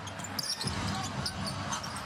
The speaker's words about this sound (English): Raptors front court. Schroeder on the dribble, far side, left wing to Barnes.